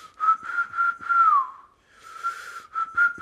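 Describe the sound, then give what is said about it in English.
A person whistles a tune, imitating a plasterer who whistled while he worked: clear, bright notes held near one pitch, with a slow downward glide in the middle, a short pause, then a few more short whistled notes. “My daddy would whistle the whole time he was plastering. He'd go,”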